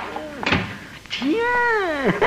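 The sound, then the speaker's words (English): A door is shut quickly, with a short, hard thump and a second, softer knock, set among voice-like tones that slide in pitch. “shut the door quick.”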